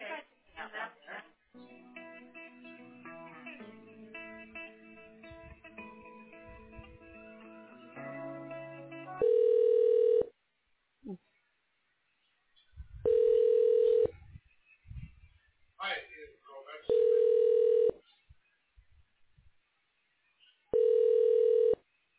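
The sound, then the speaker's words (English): Telephone ringback tones play as a call is transferred to voicemail: four steady, evenly spaced tone bursts of about a second each, preceded by a stretch of mixed, layered electronic tones. “I can transfer you to her voicemail if you would like.”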